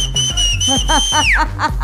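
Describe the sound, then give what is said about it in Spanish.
A long, loud, high whistle serves as an activation cue on a morning radio show. It holds one steady pitch, then slides downward near the end, over rhythmic lower-pitched sounds. “Así que viene el silbido de activación. Hágalo pues.”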